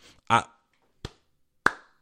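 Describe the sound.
Two sharp hand claps from a person reacting to a funny breakup story. A brief vocal sound comes first, then the claps are spaced about half a second apart.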